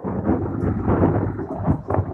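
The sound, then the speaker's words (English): Thunder from a bright lightning strike rolls as a loud, continuous low rumble through the whole clip, mixed with the hiss of steady rain. No voices are heard. “that flash of lightning looked like it hit the same spot three times”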